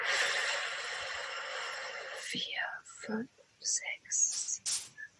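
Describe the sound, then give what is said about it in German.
A long, airy inhale through the nose during a guided breathing exercise lasts about two seconds as a steady soft hiss, followed by quiet, breathy spoken sounds. “Nimm noch mal gerne einen Atemzug durch die Nase.”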